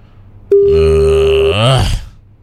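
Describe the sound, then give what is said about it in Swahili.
A telephone line tone during a call to a radio phone-in: one loud, steady electronic tone lasting about a second and a half, ending in a short buzzy warble before it cuts off. “Chukua jamani, chukua simu.”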